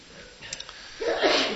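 A single sneeze, a short breathy burst that swells and trails off, after a quiet stretch with a few faint, brief sounds.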